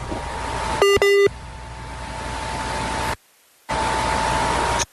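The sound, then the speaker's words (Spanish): Two short electronic beeps sound over a steady hiss and hum as a WhatsApp call drops. A brief stretch of silence follows, then the noisy line returns. “WhatsApp tiene esa complicación y es que cuando se pierde la señal o le entra una llamada, la llamada se cae.”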